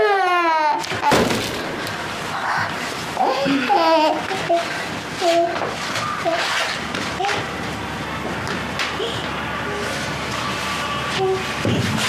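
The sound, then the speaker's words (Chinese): An infant cries in a high, wailing voice, loudest in the first second, then breaks into fussing and babble, with voices and a steady low rumble underneath. “妈妈一会儿就回来了 啊！不哭了，不哭”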